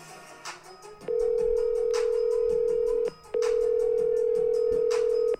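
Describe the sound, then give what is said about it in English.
A steady telephone tone sounds as a call is dialed: two long, unbroken, even-pitched tones of about two seconds each, separated by a brief break, loud against faint background noise. “So let's give the Petty a call.”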